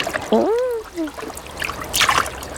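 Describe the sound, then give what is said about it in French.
Water splashing as an animal dips its paws into the sea, a short bright splash heard near the end after a voice exclaims. “Il met une patte dans l'eau. Ouh ! Puis l'autre. Ouh ! C'est très agréable d'avoir les pattes au frais.”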